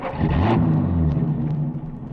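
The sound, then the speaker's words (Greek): A car sets off with its engine giving a steady, low, rough rumble that lasts about two seconds, with no voices. “Είχα την κούρσα μου και ξεκινήσαμε.”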